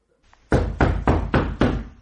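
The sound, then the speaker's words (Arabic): Five firm, evenly spaced knocks sound on a door in a religious radio drama, heard alone and without talk. “من بالباب؟ افتحي افتحي يا أمه”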